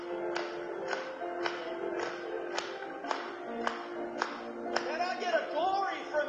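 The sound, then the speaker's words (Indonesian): An audience claps in a steady, even rhythm, a sharp clap about every half second over sustained musical tones. A voice rises near the end. “Mari bertepuk tangan kepadanya untuk hal itu.”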